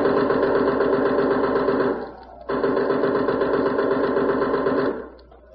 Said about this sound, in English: Don't worry about that machine gunner. He's just speculating. We can get hit just lying out here. He has to shoot over our heads.